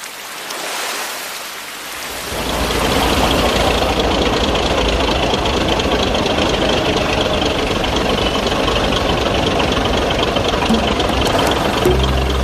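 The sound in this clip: A boat engine runs at night. After a brief quieter moment it sets into a steady knocking rumble with a broad hissing wash that continues evenly.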